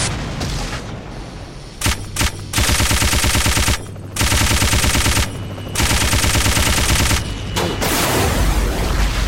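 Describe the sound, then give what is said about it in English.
Rapid video game machine gun fire rattles out in several long, loud, dense bursts. Short pauses separate the bursts, and scattered single shots sound early on. “Machine gun.”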